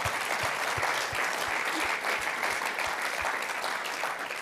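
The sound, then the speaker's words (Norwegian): Audience applause at a preaching event fills the whole stretch: a dense, steady roar of many hands clapping at a constant level, with no voices standing out. “Gi en applaus til det.”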